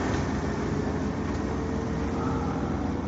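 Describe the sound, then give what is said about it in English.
Steady engine drone of a bus in the video game Call of Duty: Black Ops, a continuous low rumble with broad noise that holds an even level throughout, with no voices. “Does this bus go anywhere? Yeah, it's on its way.”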